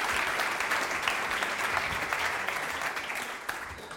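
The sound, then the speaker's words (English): Applause from an audience welcoming a speaker onto the stage: dense, steady clapping that stays loud and continuous from start to finish, with no voices above it. “Josh, welcome to the stage. Give him a hand.”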